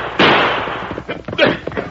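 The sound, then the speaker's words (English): Two gunshots are fired as a signal to call men in at a mesquite patch, heard as two sharp, loud bangs about a second apart. “Quick, fire two shots. Call the men in.”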